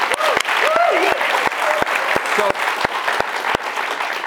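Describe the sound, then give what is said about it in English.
Steady applause from an audience after a question session with a BYU football player: a dense, even clatter of many hands through the whole stretch, with a few sharp claps standing out and brief voices rising over it. “Thanks to the audience for our questions. And we have time for me to get one in. Yeah, thanks, folks. Appreciate that. Yeah, give yourself a hand.”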